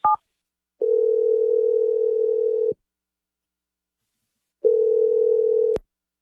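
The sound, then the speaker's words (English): A telephone line during an outgoing call: a brief beep, then two long, steady, mid-pitched ringing tones separated by a stretch of silence. Clean and moderately loud, with no voices. “I'm going to dial Ainsley's number right now. Hopefully she picks up.”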